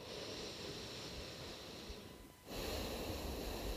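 Slow nasal breathing goes in and out through the left nostril only, with the right nostril held shut. The faint, airy hiss is heard alone and dips briefly before a stronger breath follows.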